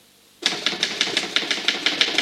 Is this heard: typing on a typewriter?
yes